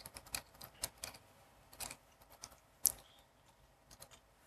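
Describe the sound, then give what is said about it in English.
Computer keyboard typing as commands are entered, with many faint, irregular keystrokes clicking at an uneven pace, some taps louder and sharper than others, alone without talk. “Just try to figure out when I type the commands.”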